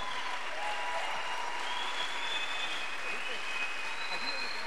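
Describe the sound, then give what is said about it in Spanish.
A church audience applauding during a sermon: dense, sustained clapping that holds steady throughout, with voices mixed into the crowd noise. “Le digo que ese aplauso para un político es demasiado, pero para el Rey de Reyes, adórelo.”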